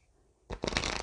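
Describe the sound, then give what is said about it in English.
A children's spirit animal card is pulled from a deck, a brief papery riffle of cards that bursts in after a moment of near silence and continues to the end. “So first I am pulling a children's spirit animal card for our inner child to connect with.”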